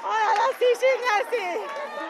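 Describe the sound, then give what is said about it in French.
Relatives of a judo athlete cheer her medal at Paris Saint-Germain's headquarters. Several excited voices shout and exclaim at once, overlapping loudly in a joyful babble. “Et là, ce que vous entendez, eh bien, c'est l'ambiance au siège administratif du Paris Saint-Germain, la Factory. Effusion de joie pour les proches de la judoka”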